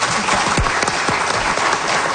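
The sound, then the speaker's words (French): Audience applause in a studio morning show, a dense, steady patter of many hands clapping at even loudness throughout, with no voices over it. “On peut les applaudir.”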